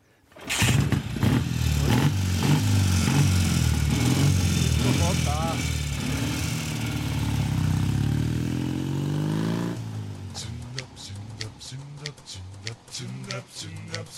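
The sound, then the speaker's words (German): A Zündapp motorcycle engine, kick-started and opened to full throttle, roars loud and sustained for about ten seconds with shifting revs, then falls to an uneven, choppier sputter. “Es hat einen Kickstarter natürlich und keinen Elektroanlasser. Und da muss man einem ganzen bestimmten Ritual folgen. Jetzt mache ich sozusagen die Batterie dazu, gebe auf Vollgas.”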